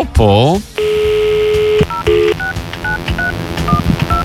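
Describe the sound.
A telephone number dialled for a call from a radio studio: a steady tone held for about a second, then a quick run of short touch-tone beeps at shifting pitches, all fairly loud.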